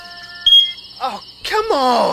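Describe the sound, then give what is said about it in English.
A smoke detector with a dying battery gives a single short, high-pitched chirp, followed by a person groaning and speaking in frustration. “if there's two things you can count on, it's your smoke detector battery dying at 3 a.m.”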